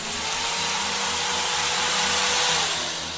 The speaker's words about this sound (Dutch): dan boor ek jou verstandtanne uit. Met hierdie boor.